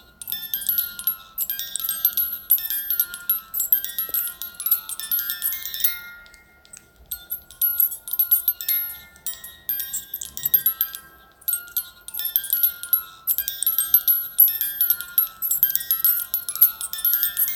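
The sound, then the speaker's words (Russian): A music box, played as part of a school lesson on sound, sounds a tinkling melody of high, bright plucked notes in a steady rhythm, with brief pauses before the tune picks up again. “Это звук музыкальной шкатулки, часть занятия по теме «Звук»”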